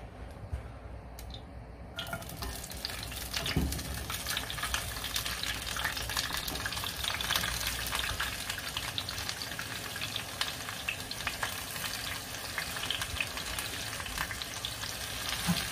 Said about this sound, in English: So now I'm sauteing the vegetables, which is the onions and the bell peppers.